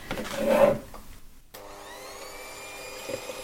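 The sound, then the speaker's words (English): Motor whine of a powerful kitchen mixer whipping air into an emulsifier solution: a loud, rough churning burst at the start, a brief dip, then a steady high-pitched whine with clear tonal overtones. “it's a pretty powerful one, so it does a reasonable job. So all we're trying to do is really incorporate some air into the solution, and hopefully then the emulsifier will hold it, so it's going to get a bit noisy.”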